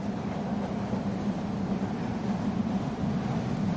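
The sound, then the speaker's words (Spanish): Continuous low rumble of a metro train crossing a river bridge on an above-ground stretch of its line at dawn. The dense, rolling roar stays loud and even throughout with no voices. “las aguas del río reflejan el metro, que cruza un puente en su tramo en superficie cuando ya ha amanecido.”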